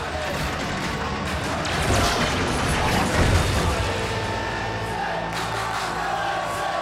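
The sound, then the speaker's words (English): Jubilant crowd cheering and shouting as an amusement park ride, the Loopy Loop, is destroyed, a continuous noisy roar with a heavier rumbling crash swelling near the middle. “The Loopy Loop is destroyed and a chairlift pylon is pulled down by a tractor.”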